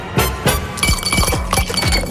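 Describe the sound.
Ice cubes clink as they drop into a glass during a quiz game where cubes count as points. A rapid series of bright, sharp clinks rings out, several close together, fairly loud with no talk.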